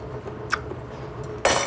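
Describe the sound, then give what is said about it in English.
A utensil stirs radish noodles with shio kombu in a bowl, giving a few faint clinks and scrapes, then a louder, brighter rustling burst at the end. “So now you're just stirring together the little radish noodles. Radish noodles. Shio kombu.”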